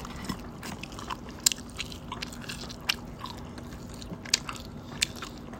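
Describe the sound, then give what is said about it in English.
Food bitten and chewed with the mouth open: soft, wet mouth sounds with a few sharp crunchy clicks at irregular intervals, quiet and close, with no talking. “Okay, I'll eat with my mouth open. Ew. I'm grabbing a bite, see?”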